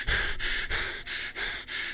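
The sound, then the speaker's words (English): A man imitates heavy, out-of-breath panting, voicing a steady run of about six loud, breathy in-and-out gasps in an even rhythm. “I can do something I call out of breath Mark Wahlberg, which is just simply,”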